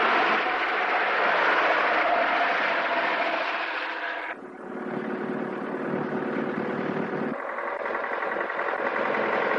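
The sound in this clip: A truck engine runs while driving in a 1957 drama film, a steady broad drone that shifts in tone and weight twice, briefly dipping before settling into a new even hum.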